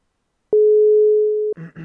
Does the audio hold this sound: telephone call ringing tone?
yes